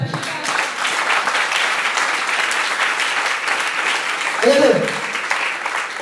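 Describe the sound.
Congregation applause in a church after a prayer: dense, steady clapping holds at an even level for the whole stretch, with a brief voice rising above it near the end.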